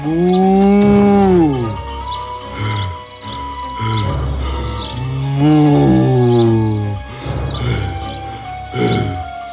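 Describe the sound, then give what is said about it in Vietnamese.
A water buffalo ploughing a rice field gives several long, deep, loud groaning calls with sliding, wavering pitch, separated by short breathy gaps. “khi đang cày thửa ruộng, Bounty đứng lại giữa chừng và bắt đầu thở ra nặng nhọc.”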